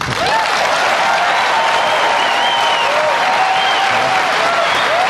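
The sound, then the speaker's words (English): An audience gives a standing ovation to an openly gay presidential candidate at a primetime Fox News event. Loud, dense, continuous clapping is topped by a few whoops and cheers. “That is the sound of a standing ovation for an openly gay man running for president on Fox News in primetime.”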